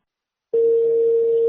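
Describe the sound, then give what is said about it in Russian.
A telephone ringback tone starts abruptly after silence and holds as one long, steady, mid-pitched beep that continues to the end. “Что такие гудки долгие”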